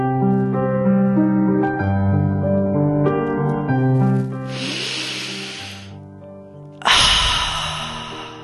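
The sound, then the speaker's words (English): Deep breaths are heard over steady music: two long, breathy rushes, the second louder and hissing. “so maybe I think it's time to take a deep breath and do something.”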